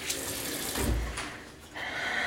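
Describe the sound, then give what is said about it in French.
Water running from a tap, a steady broad hiss that swells briefly midway and then continues at a moderate level. “Passe-toi un peu d'eau fraîche sur les avant-bras, ça remet les idées en place.”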